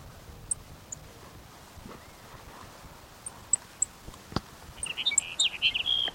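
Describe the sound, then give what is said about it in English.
A Sage Sparrow sings in the morning, mostly faint over a low background hiss. Scattered thin, high chirps lead into a brief, quick, tinkling song phrase near the end. “Here's Sage Sparrow number one for the morning.”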